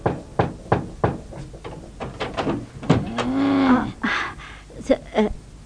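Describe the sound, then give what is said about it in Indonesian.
Knocking on a house door: a few sharp, evenly spaced knocks, then further irregular knocking and shorter raps. “Siapa itu? Lancang sekali mengetuk pintu rumahku ya.”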